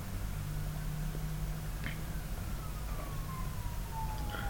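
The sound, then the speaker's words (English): A classic siren sound effect, a faint wailing tone gliding slowly downward in pitch over a steady bed of noise and low hum, with no other clear sounds. “Siren classic. You gotta love the classic sirens.”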